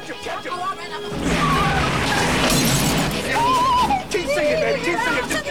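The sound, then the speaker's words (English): Glass shatters as a bullet smashes a van windshield on a van swerving through traffic: a sudden loud crash bursts into a sustained wash of noise, with voices in the mix. “A bullet has smashed Riggs's windshield.”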